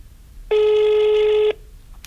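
A telephone rings once, a steady electronic tone lasting about a second that starts and stops abruptly, heard alone with quiet background before and after.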